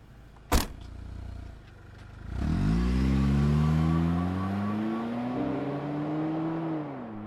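A car starts and drives off in an audio drama. A sharp click comes first, then the engine catches and revs. Its tone climbs steadily as the car pulls away, and the engine hums on at a fairly even level.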